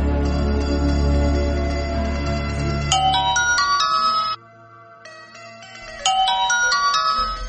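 A telephone ringtone plays loud electronic melodic tones in a repeating pattern. It breaks off briefly, leaving only a low hum, then starts up again.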